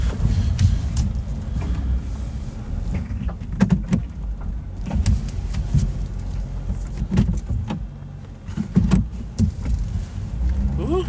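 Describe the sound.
Car being parked behind a venue: a steady low engine and road rumble with scattered knocks and clicks throughout, and no voices.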